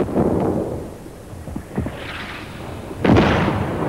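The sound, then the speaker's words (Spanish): Explosions from German Panzer tanks in a night battle thud and rumble in several separate booms, the heaviest and sharpest blast striking near the end. “Las explosiones de los Panzer alemanes refulgen en el horizonte nocturno como los relámpagos de una tormenta.”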